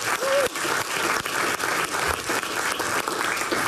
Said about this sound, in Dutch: Ook een applaus voor haar.